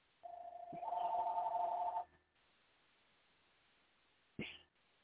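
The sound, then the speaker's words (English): A telephone rings out in another room with one steady electronic ring of about two seconds, then after a quiet pause a short, sharp burst sounds. “excuse that phone, it'll quit ringing in a minute. I can't get to it, it's out in the other room.”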